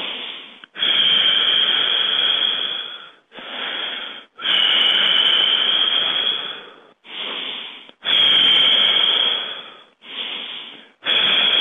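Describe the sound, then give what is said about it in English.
Loud, deep guided breathing, drawn in through the nose and pushed out through the mouth: several long, airy breaths with short pauses between them, heard alone without talk. “Breathe with me, in through the nose and out through the mouth.”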